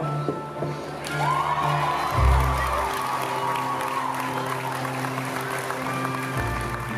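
An audience at an Iowa State Fair hog show bursts into cheering and applause, a steady wash of clapping and shouts lasting the whole time over a low, droning hum.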